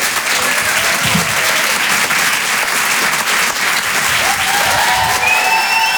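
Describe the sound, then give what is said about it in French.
Loud, sustained applause from a comedy club audience, a dense steady clatter of clapping that holds at an even level for the whole stretch without pause. “Faites du bruit s'il vous plaît pour Myriam Barouk.”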